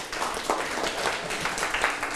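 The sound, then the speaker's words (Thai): A classroom of children clapping for a classmate: a soft, steady patter of many small hands that continues evenly throughout. “หมวดร่างกายถูกไหมถูกต้องปรบมือให้เพื่อน”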